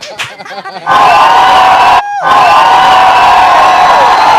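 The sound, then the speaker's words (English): Loud audience clapping and whooping cheers erupt after a brief spoken voice, hold at full strength, drop out for a split second around the midpoint, then surge back and continue. “Hold on, we're clapping. Can y'all clap?”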